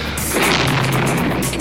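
Bullets striking a hotel as Soviet tanks enter Budapest: a few sharp, cracking impact bursts over a constant low rumble, loud and close-sounding, with no talk.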